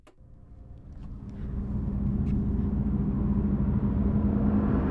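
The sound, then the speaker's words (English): A car climbs a mountain pass on an interstate highway. Engine and road rumble build steadily from fairly quiet to a loud, constant low drone, with no talk. “Driving up Raton Pass, headed south toward the New Mexico border, looks like images of the iconic Southwest.”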